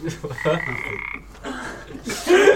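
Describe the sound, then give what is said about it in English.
Frog croaking during a tabletop dice game: a few rough, pulsing croaks of moderate loudness, with short gaps between them. “Little frog appears and. He's engaged.”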